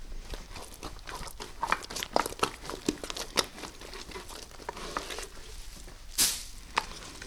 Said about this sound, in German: Dort angekommen wird es auf einer ausgelegten Folie verteilt.